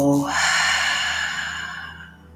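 A deep breath taken in from the belly and then let go: a long, airy exhale that starts fairly strong and fades gradually over about two seconds, with no talking over it.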